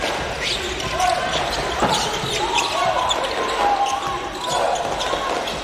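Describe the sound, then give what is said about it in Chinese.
Basketball dribbling during a game involving Australia's team: a steady run of dull bouncing thuds under crowd noise, with a commentator talking over it. “利用掩护，这球运的有点多，再出来”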